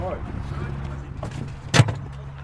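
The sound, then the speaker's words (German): A short thump and rustle as someone climbs into a golf cart at a golf course clubhouse. The single brief knock stands out over a low, steady hum. “endlich darf ich mal Golfcar fahren und ich steig mal hier drüben mit ein, okay?”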